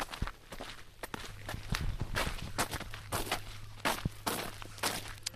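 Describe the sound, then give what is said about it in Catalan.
Footsteps of people walking toward a sheep farm in bad weather: many irregular, fairly faint steps over a low steady hum, with no talk. “I tot caminant hem arribat al Mas La Pujada, eh?”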